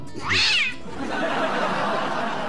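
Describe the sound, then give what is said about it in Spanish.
A cat meows once on a farm that sells livestock: a single high, arching cry lasting under half a second, followed by steady, grainy background noise. “el gato ese, pero lo vamos a vender también”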